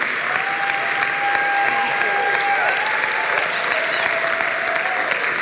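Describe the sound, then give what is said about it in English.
Audience applause for a family on stage: loud, dense clapping that stays steady throughout, with a faint thin tonal sound running through it. “Can we put our hands together for Trish and Chloe? Thank you guys so much.”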